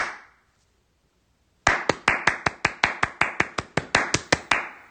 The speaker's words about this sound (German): Aber ich finde ganz interessant, hör jetzt vielleicht mal noch Klatscher 1 dazu.